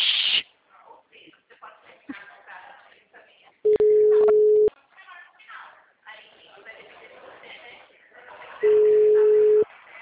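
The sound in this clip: Steady telephone call tones, two long, even beeps each lasting about a second, with people talking before, between and after them.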